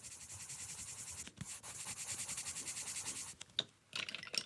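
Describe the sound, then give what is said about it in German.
A pen scratches across paper while drawing a female figure, a signature drawing, in a run of quick rhythmic strokes, then a brief pause and a few sharper, separate strokes at the end. “Jetzt zeichne ich eine von diesen Frauenfiguren.”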